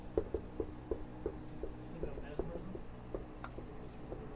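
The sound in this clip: Notes are written by hand as a faint run of quick, light scratching strokes and small taps in an uneven rhythm.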